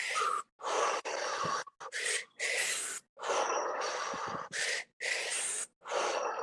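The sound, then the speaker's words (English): Belly breathing exercise in a double-inhale, single-exhale pattern: many loud, breathy bursts of short and longer lengths separated by brief pauses, with no talk. “Begin to double the inhale in a single exhale.”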